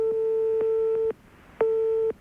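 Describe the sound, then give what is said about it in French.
A telephone ringback tone sounds on an unanswered call: two long, steady, mid-pitched buzzing tones, each about a second or less, separated by a short silence, fairly loud and alone. “On essaie de t'appeler, là, pour l'instant, Grégory, ça sonne dans le vide.”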